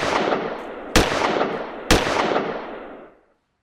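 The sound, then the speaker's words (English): Two sharp gunshots about a second apart, each a loud crack followed by a long fading tail, the noise dying away to silence shortly after the second shot. “Shoot that guy over there, please.”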